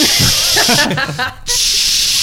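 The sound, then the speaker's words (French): A voice imitates an Axe aerosol deodorant being sprayed, making a long, bright hissing spray sound, with brief talking in the middle. “Et cet enfoiré s'est mis du déo. À côté de moi, mais genre du déo en bombe quoi. Ah ouais, il a mis sous son t-shirt là, il a vraiment fait”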